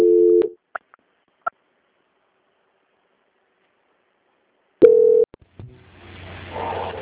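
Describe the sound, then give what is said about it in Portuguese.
Telephone tones during a call transfer: a steady low beep, two faint clicks, then long silence before a second short beep and a low, rising line hiss. “que eu vou transferir o seu contato para o controle de qualidade, que vai dar continuidade à sua contratação, tá bom?”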